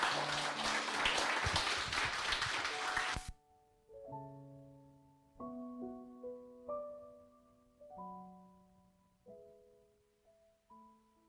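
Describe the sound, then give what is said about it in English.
A church audience clapping as an offering: dense, loud applause that stops abruptly, then soft sustained keyboard notes play alone. “Let's give the Lord the loudest clap offering if you can give him.”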